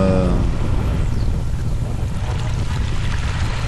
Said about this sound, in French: nous entendons les sons de la mer actuellement